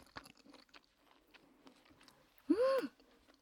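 Peanuts crunch between the teeth in close ASMR-style eating: a few soft clicks and small bites early on, then one louder, crisp burst of crunching near the end.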